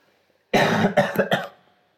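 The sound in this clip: A harsh, wet cough bringing up phlegm: one long rough burst followed by three quick, shorter hacks that fade out. The coughing is loud and heard alone.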